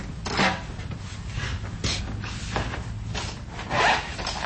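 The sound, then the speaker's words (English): Charcoal scratches across paper as a local artist draws a portrait from life at a studio. The sound is a series of rough, raspy strokes of uneven length, with a few louder swipes standing out. “The sounds of a local artist drawing a charcoal portrait from life at Saw Studios in Carbondale.”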